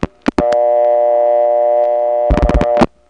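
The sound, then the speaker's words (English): Telephone line sound of a call dialed from a step-by-step switch into a No. 1 or 1A ESS: a few sharp clicks, then a steady, buzzy, harmonic tone that holds for about two and a half seconds and ends in a burst of rapid clicks. “When dialing from a step into a number 1 or 1A ESS, you can't wait forever. You only have about 20 seconds and then it eventually times out. Here's a tape of my doing that.”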